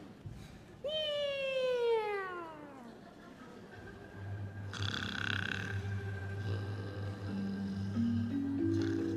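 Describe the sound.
A human voice imitates a cat's meow during a Beijing traditional opera and folk-art performance: one long, drawn-out meow falling steadily in pitch, followed by sustained tones.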